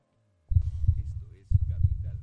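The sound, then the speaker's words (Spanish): A heartbeat sound effect in a radio promo about financial markets: two loud, deep double thumps, each a lub-dub pair, separated by a brief gap. “Escucha el latido de los mercados en Capital Radio.”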